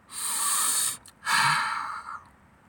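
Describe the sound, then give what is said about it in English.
A deep breath drawn in, heard as a long airy hiss, then after a brief pause a second long breathy rush that tapers off. No voices. “Take a deep breath.”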